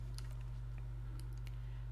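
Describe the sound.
Faint tapping of a computer keyboard as someone types, a few soft key clicks scattered over a steady low hum.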